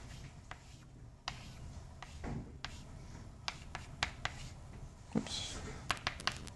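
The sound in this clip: An equation is written on a board: scratchy strokes broken by a few sharp taps and clicks, fairly faint against a quiet background.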